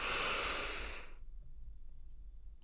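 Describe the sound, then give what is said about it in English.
A deep breath is drawn in through the nose during a guided breathing exercise: one airy, rushing inhale lasting about a second, then near silence. “So we're going to take in oxygen from our nose and release through the mouth. Are you ready? Breathe in.”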